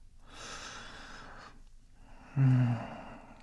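A slow breath blown against someone: a long, soft, airy exhale, then a pause and a shorter, louder breathy gasp with a voiced edge.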